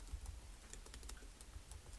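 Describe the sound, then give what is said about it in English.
Quiet, rapid typing on a computer keyboard, with many light keystroke clicks in an uneven rhythm and no talk. “Oh, you're really going to make me type out cool.”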